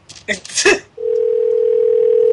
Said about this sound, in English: the phone's ringing.